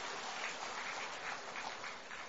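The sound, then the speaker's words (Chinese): An audience applauds to welcome a speaker. The clapping is a faint, even patter with no break. “让我们掌声欢迎”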